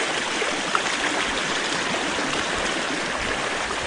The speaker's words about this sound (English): Like you can hear, the creek is roaring still.